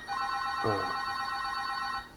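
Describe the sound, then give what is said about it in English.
A telephone rings in one continuous, buzzy electronic tone that lasts about two seconds at steady loudness, then stops. Near the start, a short lower sweep passes under the ring. No voices are heard. “The phone's ringing?”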